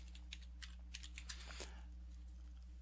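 Soft typing on a computer keyboard: a scattered patter of light key taps, faint over a steady low hum.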